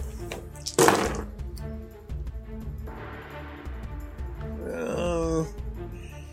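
A large handful of dice is rolled for a tabletop game, with one loud clattering burst near the start followed by softer rattling and knocks.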